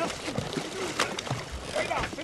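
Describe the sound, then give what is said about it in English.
A blue shark thrashes and splashes as it is hauled onto a fishing boat; irregular bursts of sloshing water and knocks sound under people talking. “We have a shark. Yeah, baby. The shark's really thrashing.”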